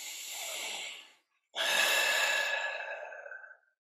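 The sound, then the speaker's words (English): Two audible breaths drawn during a guided meditation stretch: a shorter breath, a brief pause, then a longer, fuller and louder deep inhale that fades out slowly. “solid stretch, breathe in deeply.”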